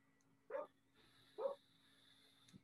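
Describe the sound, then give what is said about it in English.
A dog barks twice, two short, separate barks about a second apart, faint against a quiet steady background hum, with a brief soft sound just at the end. “It's my dog barking.”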